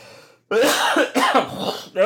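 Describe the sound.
Someone coughing up phlegm: a few rough, voiced, throaty bursts in quick succession, loud and alone, with no speech.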